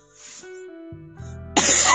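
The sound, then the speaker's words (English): A harsh, loud cough erupts near the end after a quieter stretch of low murmur and hum. “Sorry, I had to cough really quickly.”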